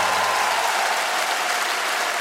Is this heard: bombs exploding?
no